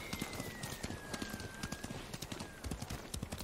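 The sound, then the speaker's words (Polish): Hoofbeats of a horse in a video game, a steady, quick clip-clop rhythm of many light hoof strikes at a fairly low level. “Ciekawe, czy ten koń się kiedyś męczy, czy nie.”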